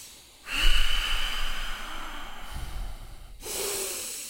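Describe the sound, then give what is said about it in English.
Controlled breathing through the nose during a breathing exercise: one long, drawn-out nasal breath with a faint whistle, followed by the start of another. The breath is steady, rushing and fairly loud. “We'll go five controlled breaths with the nose.”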